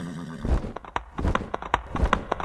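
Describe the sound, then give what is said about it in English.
Hooves clip-clop as a flying horse is saddled up for another ride, making many crisp, evenly spaced knocks. The knocks begin shortly after the start and continue at a steady trotting rhythm. “And so they went to their flying horse, Peggy. All right, Peggy, time to saddle up again.”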